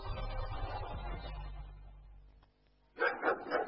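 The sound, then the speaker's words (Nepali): A pet dog that has been acting aggressively and unusually barks in a few short, loud bursts at the end, after a stretch of rougher, lower sound. “के भयो तपाईँको कुकुरलाई यो त हिजो अस्तिदेखि धेरै नै भुगिरहेको सुन्छु”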